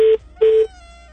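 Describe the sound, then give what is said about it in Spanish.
Telephone call tones: two steady, mid-pitched beeps separated by a short gap, followed by a quiet fading tail, with no talking. “Llamada telefónica, aló, buenos días.”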